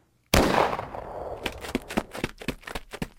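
Gunshot in a dramatized street holdup and scuffle: one loud, sudden crack with a long, noisy decay, followed by a scatter of quieter sharp clicks and knocks.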